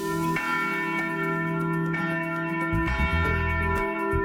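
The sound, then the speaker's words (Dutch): Church bells ring from a Reformed church in a South Holland village that has three bells, with many repeated metallic strikes layered over a steady, sustained resonant hum at fairly even loudness. “De gereformeerde kerk in het Zuid-Hollandse dorp Puttershoek moet het voorlopig met 2 kerkklokken minder doen.”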